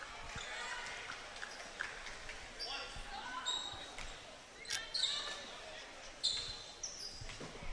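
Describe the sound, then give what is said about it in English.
A basketball is dribbled before a free throw during a game involving Grants Pass: a few soft, widely spaced thumps, faint against low background chatter. “Two dribbles. Deep knee bend.”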